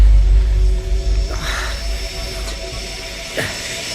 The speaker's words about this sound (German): sondern ein Hubschrauber.